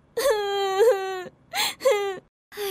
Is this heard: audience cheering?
no